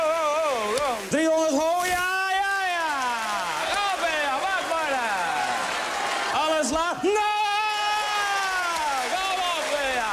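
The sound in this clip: Loud screaming comes from a recording played as a sleep sound: long, continuous wailing screams with sliding, wavering pitch that keep going without pause for about ten seconds.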